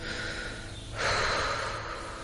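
A deep breath in: one long, airy inhalation swells about a second in, then holds steady to the end over a soft, constant background.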